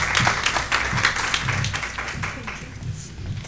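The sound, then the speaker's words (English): Audience applause welcoming a speaker to a forum, a steady wash of many hands clapping, with a voice talking over it. “Would you give her a big hand tonight as she comes? Come on, come on. You can do better than that. Give her a big hand.”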